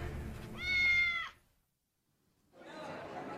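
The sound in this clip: A kitten gives a single drawn-out, high, tonal meow near the start. A short silence follows, then a stretch of broad, noisy sound.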